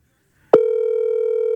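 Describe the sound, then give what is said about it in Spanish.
Telephone dial tone on an outgoing call: a sharp click, then a loud, steady, unbroken tone that holds to the end, with no talk. “Estoy llamando una llamada express. Óigalo, óigalo, óigalo.”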